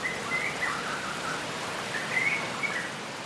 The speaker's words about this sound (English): Wind blowing through the trees, rainfall dripping, insects buzzing, birds chirping.